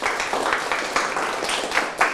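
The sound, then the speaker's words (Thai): Students in a classroom clap together after a correct answer, a dense patter of hands with faint pulses roughly every half second, moderately loud and steady for about two seconds. “เดี๋ยวเรามาดูคำตอบถูกต้องปรบมือครับ”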